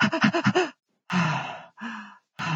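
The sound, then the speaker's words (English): A human voice imitates a baby's irregular breathing, starting with about five quick, short puffs of breath, then shifting into slower, longer breaths separated by brief silent pauses. “and so they go in and out of this fast, slow breathing.”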